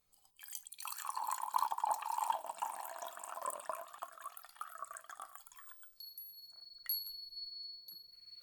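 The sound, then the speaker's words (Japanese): Hot water poured into a tea bowl while preparing whisked tea: a steady splashing, gurgling stream for about five seconds, then a few faint, high clinks with a thin ringing tone. “そうしたら、こちらのお茶碗へお湯を注いで、と。”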